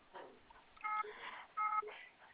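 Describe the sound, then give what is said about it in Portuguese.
Electronic telephone tones signal an incoming call from an insurance company during a phone conversation: two short, steady beep bursts over faint line hiss. “Tem um negócio de seguros me ligando, vou desligar.”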